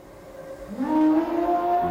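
An army war elephant trumpets: a loud tonal call bends upward near 0.7 s, then holds a bright, wavering, harmonic-rich note through to the end over a low background rumble.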